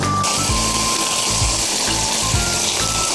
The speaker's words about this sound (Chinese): 现在我开一下大火收汁儿